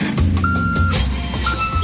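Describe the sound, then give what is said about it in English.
Reversing beeps from a delivery truck repeat a few times at a high, steady pitch over a low, continuous engine rumble. “Can you hear that? That's the sound of truckloads of new entertainment being delivered”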